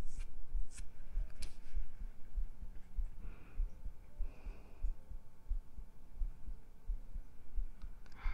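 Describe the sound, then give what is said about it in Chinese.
Heartbeat picked up by a microphone pressed directly against the chest: many steady, fast, muffled low thumps in an even rhythm over a constant low hum, with no talking. “因为是不一样的麦克风，这麦克风是直接贴在胸上的，没错，真实的深入心音啊”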